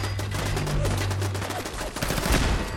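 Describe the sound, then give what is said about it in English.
Rapid gunfire from a 10mm auto pistol in a video game: many sharp, loud shots in fast succession, running continuously over a low steady hum. “Okay, I am really liking this 10mm auto pistol. This thing is awesome.”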